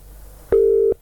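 One short telephone tone sounds while callers wait for someone to pick up: a single steady beep under half a second long, clear against a quiet background.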